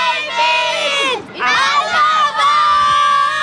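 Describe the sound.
A crowd of children calls out together in unison, loud high-pitched voices in three sustained shouts broken by brief pauses.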